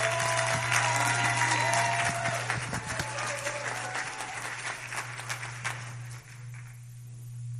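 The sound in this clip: A church audience applauds to welcome a pastor at a Pentecost Sunday service: dense, steady clapping from many hands, loud at first and gradually thinning before tapering away near the end, over a constant low hum.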